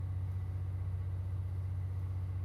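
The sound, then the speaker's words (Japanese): A running electric locomotive gives a steady low hum and rumble, constant and even in loudness throughout. “このまま静かに電気機関車の歌を聴きながら眠っちゃいまし”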